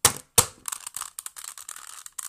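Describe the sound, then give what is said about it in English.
A Rubik's Cube dropped: two sharp plastic clacks on impact, followed by a quick, scattered run of many lighter clicks and rattles as it settles, fairly faint and with no voices. “Hear it now? Hear it properly? Rubik's Cube.”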